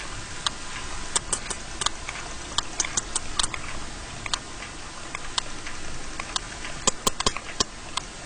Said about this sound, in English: And this is the sound of a sperm whale recorded off the coast of Ibiza.